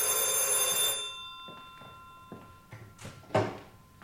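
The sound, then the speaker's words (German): An old-style telephone bell rings in one loud burst lasting about a second, then a few dull thumps and clatters follow. “Kaum fange ich an zu essen, dann bimmelt das dämliche Telefon.”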